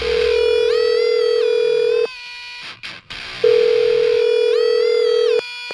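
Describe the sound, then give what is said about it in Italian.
A telephone dial tone, loud and steady, plays in two long stretches separated by a short gap with a few clicks, then cuts off near the end. “Fatemi il numero, forza.”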